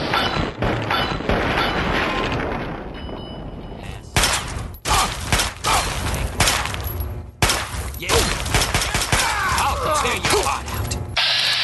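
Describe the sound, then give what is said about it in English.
Pistol gunshots in a video game shootout with raiders: several sharp, loud bangs cut through steady mechanical clatter and rattling game noise that runs the whole time. “Maybe I'll shoot him in the head with my pistol instead.”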